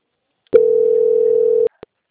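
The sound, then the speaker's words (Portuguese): A telephone line tone plays while a call is transferred: a single steady, mid-pitched tone holds for about a second, then stops, followed by a brief blip and silence. “Eu peço que a senhora aguarde em linha que eu vou passar o contato para o controle de qualidade”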